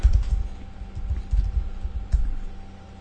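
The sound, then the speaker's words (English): Heavy, irregular typing on a computer keyboard: uneven bursts of thudding clacks with short pauses between them, over a steady low hum. “Here we go with the buffalo typing again.”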